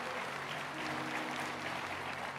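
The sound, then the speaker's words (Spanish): Congregation applause during a church service: a dense, continuous wash of many hands clapping, steady and even throughout with no gaps or distinct voices. “sí, eso vale aplaudírselo al Señor.”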